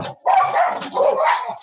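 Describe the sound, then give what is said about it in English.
Household dogs barking after being set off, a few loud, tonal barks in quick succession with a whiny, yelping edge, separated by short gaps. “Can you hear my dogs barking? Yeah, something set them off.”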